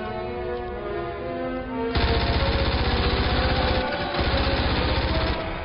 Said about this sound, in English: Where's his P90? Why is he carrying MP5? He's gone to full auto.